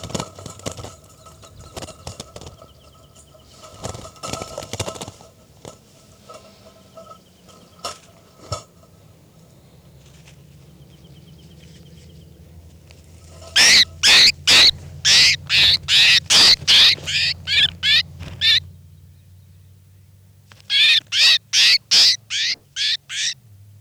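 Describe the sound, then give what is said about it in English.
A bird being handled, calling and flapping its wings. After a quiet stretch with faint scattered clicks, it breaks into two bursts of many rapid, loud, bright pulses separated by a short pause. “I'm going to be handling bird 405.”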